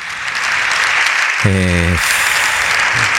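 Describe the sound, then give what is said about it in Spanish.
Deputies in the Spanish Congress of Deputies stand and applaud, producing dense, steady clapping that fills the chamber from start to finish without a break. “Os deputados en pé, os deputados do Partido Popular aplaudindo a Alberto Núñez Feijóo”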